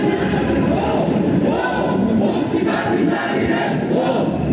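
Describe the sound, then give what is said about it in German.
Chanting crowd of thousands of protesters, some masked, marching through Vienna's city centre in a 2014 demonstration against an academics' ball. A dense, steady roar of many voices with rhythmic shouted chants, loud and unbroken throughout. “Was Sie hier hören, ist eine Demonstration gegen den Akademikerball im Jahr 2014. Tausende Menschen, zum Teil vermummte Männer und Frauen, laufen mit Sprechchören durch die Wiener Innenstadt.”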